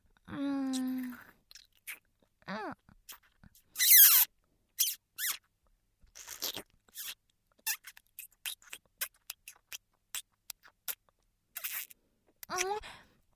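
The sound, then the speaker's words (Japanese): Chewing on a food eaten for the first time: many short, crisp bites and wet clicks in an irregular rhythm, with a few high squeaks, fairly faint and without talk. “初めて食べたけど、まあまあ美味しいかも。”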